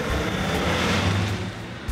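A car accelerates hard as it pulls away fast, with a loud, sustained engine roar and rumble that stays strong throughout before easing slightly at the end.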